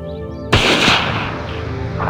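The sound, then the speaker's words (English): A gunshot fired at a panther cracks out as one sudden, loud blast, followed by a long rumbling decay that fades slowly. “Look! It's picked up the panther! Shoot it!”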